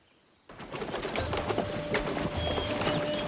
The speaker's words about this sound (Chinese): 草原上，一支队伍正在行进，队中有一辆马车。